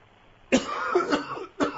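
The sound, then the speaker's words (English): A person coughs: one long, rough, harsh cough, followed by a shorter second burst right after, both fairly loud and alone. “I got a cough, okay?”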